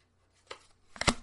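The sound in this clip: A pack of hockey cards is opened with two short, faint crinkling rustles, the second louder and fuller than the first.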